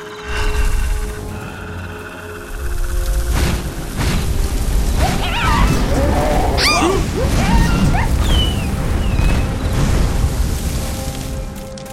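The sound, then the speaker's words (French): Booming, whooshing fire blasts as several fireballs are launched together and a creature breathes fire on attacking creatures: rumbling low booms and rushing swooshes throughout, with shrill squealing cries in the middle. “je vais balancer plusieurs boules de feu d'un coup et Akar crachera le feu sur eux”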